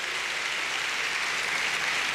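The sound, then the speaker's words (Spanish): Audience applause, dense and steady clapping that holds at an even loudness for about two seconds, with no voices standing out. “Dale un aplauso al rey”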